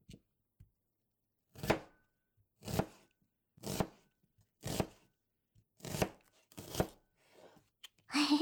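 Knife chopping onions on a board: about six firm, evenly spaced chops with a steady rhythm, fairly quiet, ending in a louder burst.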